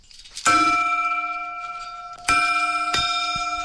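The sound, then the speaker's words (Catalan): A hermitage bell at Sant Joan is rung by its clapper: three bright metallic strikes, the first left to hum for a long while, then two more in quick succession, each leaving a sustained ringing tone. “Doncs vinga, ho fem, toquem la campana, el batall o com ho diguem, sí?”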